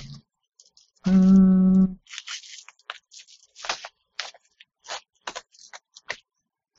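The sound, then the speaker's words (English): Knife cutting open a mailed fabric-wrapped package: a brief steady hum, then a run of short, scratchy slicing and scraping bursts of uneven rhythm. “Where the heck is the open part? Okay. I think I'm just kind of using my knife.”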